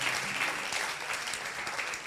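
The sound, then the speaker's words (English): Applause from a gathered crowd honoring a woman asked to rise, a dense, even wash of clapping that holds steady and moderately loud for the whole stretch. “A round of applause for her.”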